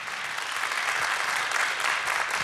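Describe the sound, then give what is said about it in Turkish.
An audience applauds an orchestra of saz players at a Turkish classical music concert, an even, dense wash of clapping that holds throughout without voices. “Evet, Onur Özel Çağlayan ve orkestrasında güçlü bir alkış rica edebilir miyim”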